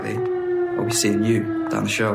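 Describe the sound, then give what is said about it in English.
An air raid siren warning of German bombers holds a steady, sustained tone beneath people talking over it. “That sound is an air raid siren. It's a signal that German aircraft have been spotted on a bombing raid.”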